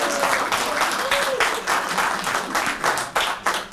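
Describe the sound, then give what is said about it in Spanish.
Audience applause for a university choir at a live show, a dense, steady wash of clapping that holds at an even, fairly loud level for about four seconds. “brindémosles un fuerte aplauso al coro de la Universidad Veracruzana, por favor.”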